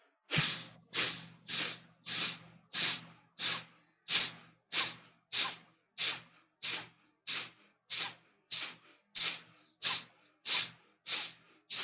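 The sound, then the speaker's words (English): Many forceful breaths in a breathing exercise, each a sharp, hissing rush of air, repeating in a fast, steady rhythm with no talking. “So let's do 20 breaths. Ready? Take a deep breath in. Go.”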